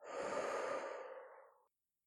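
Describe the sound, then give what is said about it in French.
One slow, deep breath during a guided relaxation exercise, heard alone as a soft, airy exhale that swells and then fades to silence. “Prends une bonne inspiration par le nez et une bonne expiration par la bouche.”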